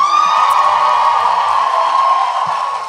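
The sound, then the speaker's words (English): Tour audience at a live show cheering loudly, a sustained high-pitched whooping roar from many voices that holds strong and eases off slightly toward the end. “And you guys wow. already win the prize for best tour audience so far. I that was like I don't know if anybody listens to Sawbones. That was a Sydnee McElroy level of cheering.”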